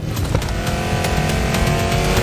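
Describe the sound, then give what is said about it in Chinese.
Loud engine roar of two race cars battling on a track, a sustained, high-revving drone that holds steady throughout. “两辆赛车丝毫不肯退让，激烈争夺着这条赛道的主权。”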